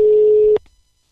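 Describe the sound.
A telephone call ringing out to Kópavogur: one steady, low electronic tone that stops abruptly after about half a second, followed by a faint click.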